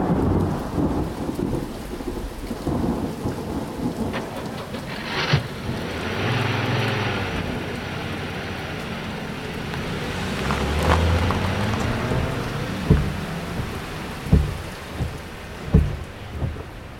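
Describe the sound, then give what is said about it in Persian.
Steady rain falling, with low rolling thunder through most of the stretch and several sharper, louder claps and rumbles toward the end. “بارون گرفت.”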